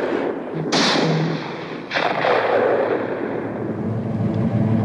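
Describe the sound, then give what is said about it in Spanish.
Gunshots echo across a harbor dock: two sharp, loud blasts, each trailing off in a long, rumbling reverberant decay over steady background noise. “El disparo retumbó en la dársena, como los que le siguieron.”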